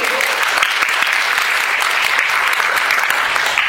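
Audience applause for a panel guest: a loud, dense wash of clapping that holds steady for the whole stretch without letting up.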